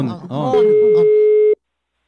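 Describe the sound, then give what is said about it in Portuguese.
A single steady electronic telephone tone on an incoming call, lasting about a second at a fixed pitch, preceded by a brief burst of talking and then cut off abruptly. “O Carnizo tá chamando.”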